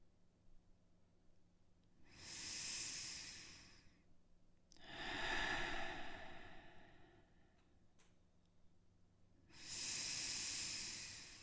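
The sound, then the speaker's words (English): Deep, slow breathing from a seven-breath opening exercise: three long, loud breaths separated by quiet gaps, each a broad airy rush, with no talking. “We're gonna start with 7 breaths to open up.”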